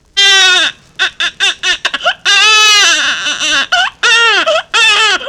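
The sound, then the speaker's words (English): A hungry baby cries loudly in impatient, demanding wails. Several long sustained cries alternate with short choppy sobs and catches of breath. “There will be the impatient, demanding cries of hunger,”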